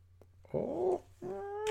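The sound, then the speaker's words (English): Two drawn-out cat meows, the first wavering and the second longer with a steady tone, stand out clearly above a faint low hum, with a brief quiet gap between them. “what is it, kitty?”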